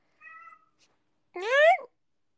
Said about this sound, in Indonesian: Bacot, anjir, kucing gua.